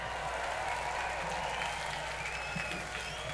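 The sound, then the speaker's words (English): Audience applause at a live show in Finland: a steady, dense wash of many hands clapping that holds at an even level for the whole stretch. “give yourselves a round of applause”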